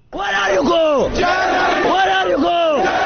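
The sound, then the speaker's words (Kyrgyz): Crowd of migrants outside Budapest's Keleti railway station loudly chanting "Germany" in unison, many voices repeating the rhythmic call with rising and falling pitch. “Будапешттин чыгышындагы келети темир жол бекетине киргизбей койгондон кийин колдоруна билеттерин кармаган мигранттар анын жанында Германия, Германия деп кыйкырып турушту.”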